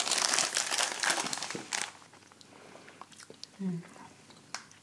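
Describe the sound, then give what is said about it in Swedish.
Crunchy chewing of gingerbread cookies (pepparkakor), with many crisp, dense crunches for the first two seconds that then thin out into softer, sparser chewing and a few faint clicks. “Är det pepparkakor? De är jättegoda.”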